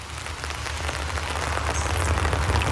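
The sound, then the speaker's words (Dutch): Rain falling at a graveyard by a grave: a steady, dense hiss of drops and patter that holds even and fairly loud throughout, with no voices. “Sta ik dan in de regen? Bij je graf.”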